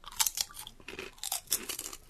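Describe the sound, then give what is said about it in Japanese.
Crunching and chewing on thin, triangular crispy corn puff chips, like flattened puffed-grain crackers. Many sharp, brittle crunches arrive in quick irregular bursts, with no talk. “うん、 ポップコーン でも美味しい。 ああ 、パリッ、 美味しいですこれ、 はい、パリッとした食感ですね、噛むほどにトウモロコシの香ばしい風味が増しまして、”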